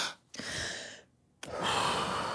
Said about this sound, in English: Deep breaths.